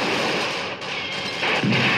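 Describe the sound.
A grenade launcher fires during a film shootout scene. A dense, heavy roar of booming blast noise runs throughout, and a couple of louder bursts punch through near the end.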